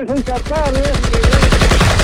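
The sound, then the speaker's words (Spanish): Firing squad gunfire: many sharp, loud reports in a rapid, steady rhythm, with a shouted voice over the first shots. “César, prepare el arma. ¡Apunten! ¡No te muevas! ¡Fuego!”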